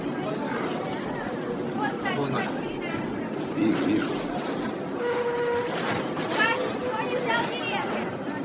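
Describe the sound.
A ride on a crowded tram: the car rumbles constantly under many voices chattering throughout, and a short tonal note sounds near the middle.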